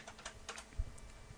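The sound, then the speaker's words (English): Typing a search on a computer keyboard: a short run of quick, soft, faint keystrokes with one slightly heavier tap near the middle. “Let me just type it in a search here.”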